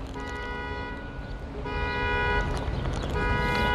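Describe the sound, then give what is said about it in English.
A car alarm goes off outside with a harsh, horn-like tone. It repeats in sustained bursts with short breaks between them, and it grows slightly louder as it continues over a low background rumble. “Now I apologize for all the noise that you're hearing, someone's car's going off.”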